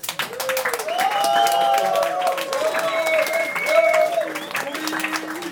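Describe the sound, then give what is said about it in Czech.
Applause and clapping from an audience at a celebration form a continuous, loud patter, with voices calling out prominently over the crowd. “A ještě jednou velký potlesk. A kojeneckou vodu, jo? Tak jde. A tak můžeme tleskat”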